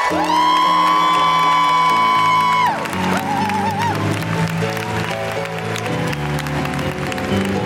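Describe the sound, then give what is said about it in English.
An audience at a live feminist comedy show greets a comedian with applause and woo-hoo cheers. Steady, dense clapping runs throughout, and scattered whoops ride over the crowd. “Put your hands together and make enormous, wonderful, welcoming, woo-hooing noises for the excellent Bridget Christie!”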